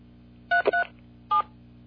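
Telephone keypad dialing tones sound while someone dials into a conference call line: three short, steady, mid-pitched beeps, two close together and a third after a pause, over a faint low hum.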